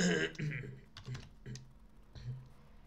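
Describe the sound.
Typing on a computer keyboard comes as a few quiet bursts of clicking keystrokes separated by short pauses, faint and uneven in rhythm.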